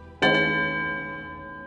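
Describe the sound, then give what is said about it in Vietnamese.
A Buddhist nun shakes a small hand bell as she walks. Two quick, bright strikes blend into a long, sustained ring that slowly decays, with no other sound. “Cứ vài bước là lắc chuông một lần.”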